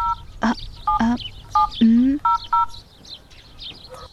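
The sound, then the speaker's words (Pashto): Telephone keypad tones as a number is dialed to place a call. A few short, high, clipped beeps are spaced irregularly and interleaved with louder, lower honk-like rising sounds. “ته صبر چې اوس فاطمې ته زنګ ووهم”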